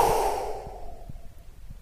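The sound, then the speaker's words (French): A deep exhale releases a held breath as a breathy rush of air that fades out within about the first second, followed by near quiet. “On inspire profondément. On bloque, on contracte, on charge le négatif. Au maximum, au maximum, au maximum, et on s'en débarrasse sur le souffle.”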